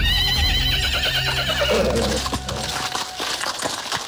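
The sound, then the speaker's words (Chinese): A horse whinnies loudly near a horse-drawn carriage with a four-horse team, its high, wavering neigh filling the first half, followed by a run of sharp clattering knocks. “快驾上我们的马车”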